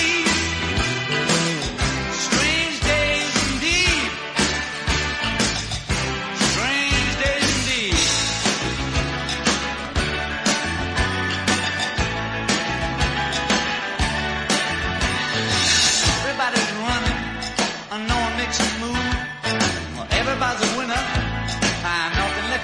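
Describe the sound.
A full-band pop-rock song with vocals over a dense, steady backing of drums, bass and guitars, playing loudly and without pause throughout.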